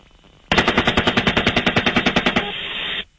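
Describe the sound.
Cannon fire from an attack helicopter in one long, rapid burst of evenly spaced loud shots lasting about two seconds. A sustained rumble follows, then cuts off abruptly.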